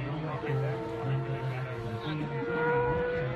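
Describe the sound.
Superstock motorcycles racing at the Isle of Man TT give a droning engine note that swells and fades, while a man talks over the mechanical roar.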